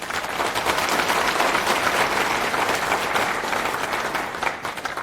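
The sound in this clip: Applause from a conference audience in Brussels welcoming a speaker to the stage: dense, steady clapping that continues throughout and eases slightly near the end.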